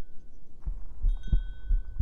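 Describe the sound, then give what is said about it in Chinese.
Human heartbeat, close and intimate: a steady series of soft, low thuds in an even rhythm, alone against a quiet background. “仔细去听，感受我的心跳。感受到我心脏的跳动韵律了吗？”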